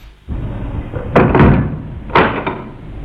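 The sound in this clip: Knocking on a door in a home, a few heavy, hollow thuds in two short groups, loud against a quiet background with no voices.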